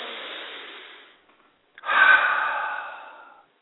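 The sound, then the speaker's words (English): Deep breathing: a long, soft breath tapers into a pause, then a second fuller, airy breath swells and slowly fades, with no talk over it. “take a deep breath. In fact, so will I”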